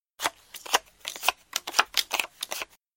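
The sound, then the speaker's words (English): Playing cards are dealt for a game of Happy Families, a brisk run of many crisp flicks and snaps at a fairly even pace. “Let's play Happy Families. I can deal the cards out.”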